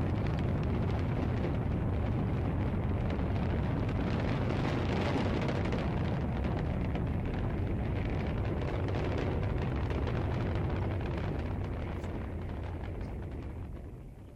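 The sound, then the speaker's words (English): A rocket launch gives off a dense, continuous rumbling roar that spans low and high tones. It holds steady for most of its length, then slowly fades away in the last few seconds. “More rocket sounds.”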